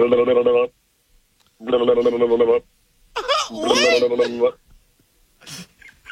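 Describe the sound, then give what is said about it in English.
An anime-themed One Piece phone ringtone rings as three melodic bursts separated by short pauses, with people talking over the later part. “That's the One Piece. That's a phone call for One Piece. If anybody knows anime.”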